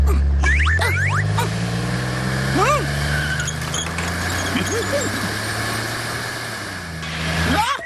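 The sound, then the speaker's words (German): A toy race car's engine revs as it drives off to deliver a parcel: a low, humming drone that swells and climbs over the first seconds, then holds steady and fairly loud throughout. “Ja, ich bin Kali Rennauto und ich bin am allerschnellsten. Soll ich dir schnell dein Paket nach Hause fahren?”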